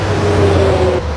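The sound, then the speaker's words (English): Car traffic on Highway 70: a loud continuous drone of engines and tires with a low hum and a faint tonal whine, dipping slightly at the very end. “That's the sound of thousands and thousands of cars passing the new Real Talk Radio location every single day.”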